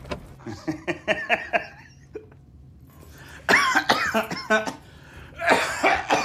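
A man coughs into a handkerchief, a run of repeated rough coughs in several bursts. A quicker series comes first, then louder, harsher coughing after a short pause.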